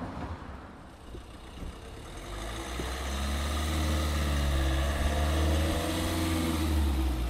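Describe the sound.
A car drives in at the gates of a new purpose-built housing complex. Its low engine rumble is faint at first and grows louder after a few seconds, then holds steady to the end with no talk.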